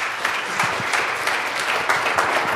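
Kiwanis audience applauding to welcome Governor Mitch Daniels, with many hands clapping in a dense, steady patter of sharp claps at even loudness throughout.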